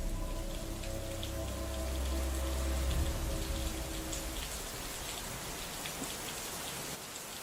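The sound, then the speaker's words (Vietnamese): Steady rain falls with a dense patter of drops, and a faint low rumble of thunder sounds during the first few seconds. “Ở bên ngoài, trời dường như bắt đầu đổ mưa. Loáng thoáng trong đó còn có cả tiếng sấm sét đì đùng.”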